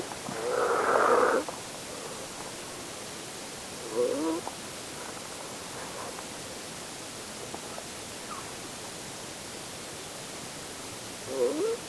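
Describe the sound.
A person snores a few times, each snore a rough, hoarse burst rising out of a steady loud hiss, with long quiet gaps between them.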